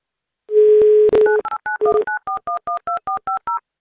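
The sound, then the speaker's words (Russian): A telephone dial tone hums briefly, then a click, then a phone number is dialed as a rapid run of many short touch-tone beeps in a brisk, even rhythm. “Мы звоним Ирине в Москву.”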